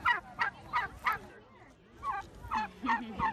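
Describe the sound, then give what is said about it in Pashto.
Turkeys gobble at an animal sanctuary where they are kept as companions and fed vegetables and fruit: a run of rapid, throaty calls, a brief lull, then another burst of gobbling. “دا ځای د ځناورانو پناهګاه په توګه پیژندل کېږي او د تیرو 13 کالو راهیسې خلک دلته ځي او خرتمی چرګانو سره وخت تیروي”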